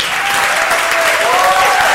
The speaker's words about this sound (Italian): Buonasera a tutte, buonasera a tutti, benvenuti a una puntata speciale di Tintoria live da Recanati. Applauso.